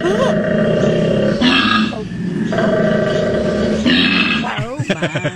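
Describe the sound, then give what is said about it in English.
A koala vocalizes in deep, rasping bellows, alternating rough snore-like stretches with loud belching grunts and ending in a rapid run of pulsing grunts. “It's actually a koala.”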